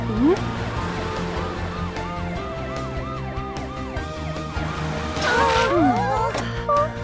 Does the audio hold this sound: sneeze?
no

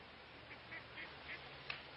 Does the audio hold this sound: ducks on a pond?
yes

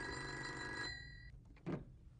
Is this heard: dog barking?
no

